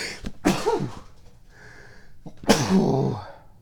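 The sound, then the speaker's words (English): A person sneezes loudly and abruptly, with sharp bursts of breathy noise and no talking around it. “sneezes on the air.”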